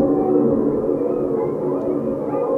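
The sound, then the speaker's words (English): Coyote calls mixed with grackle calls blend into a sustained, layered wash of wavering, moaning tones that holds steady without a clear break. “it also sort of reminded me a little bit of coyotes. So then I reached for coyotes. So if I combine these coyote sounds with the grackles,”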